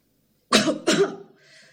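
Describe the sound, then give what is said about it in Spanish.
Two raspy coughs voiced by a person imitating a rescued turtle, loud and close together, followed by a faint, short wheezy trail. “Tosía la tortuga.”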